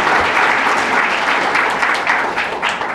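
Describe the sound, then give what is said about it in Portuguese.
An audience applauds at a Brazilian Senate event: dense, steady clapping from many hands, loud and unbroken for the whole stretch. “E nós bater palma e a TV Senado vai te mostrar como exemplo para todo o Brasil.”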